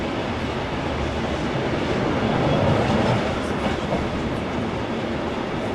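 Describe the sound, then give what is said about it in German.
A passenger train hauled by a TMZ diesel locomotive rolls along a historic inland railway route in Sweden, giving a steady, dense rumble of wheels and running noise that stays even in loudness throughout, with no voices. “Am Mittag setzt sich unser Zug wieder in Bewegung zum Reiseendpunkt des Tages, Österschund.”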